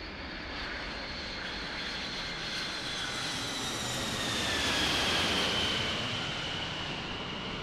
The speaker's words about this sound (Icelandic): Kanski er bara best að fljúa hérna heima. Við skulum lenda.